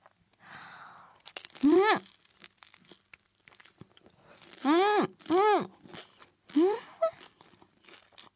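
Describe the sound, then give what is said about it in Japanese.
Crisp crunches from biting into a small, thin, golden-brown deep-fried spring roll: a few crackly bites with short voiced murmurs from the eater between them. “いやーいい感じのこんがり茶色に揚がってますよ。ちょっと小さめのね、細めの春巻きなんだけど、いただきます。”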